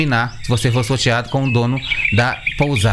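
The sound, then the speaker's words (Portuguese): Little pet bird chirping at a guesthouse, its high tweets coming in brief bursts beneath steady talk from a man. “E esse é o som da pousada que vocês têm lá. É o Zé Luca, o pintinho dele. Tá bom. Pintinho não, o passarinho dele.”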